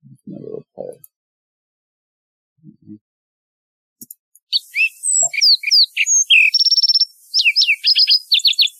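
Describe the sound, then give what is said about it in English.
A lark sparrow sings at normal speed: after a few soft low thumps, a rapid series of high, varied chirps and whistled notes begins, broken by a buzzy trill, and continues in quick bursts to the end. “a lark sparrow. Let me play it at normal speed here. Let me just play it that way.”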